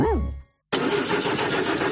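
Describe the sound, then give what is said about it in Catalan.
The engine of a poorly maintained car starting: a brief tonal sound, a short silence, then a loud, rough, continuous engine roar that holds steady to the end. “Así suena el motor de un coche mal cuidado.”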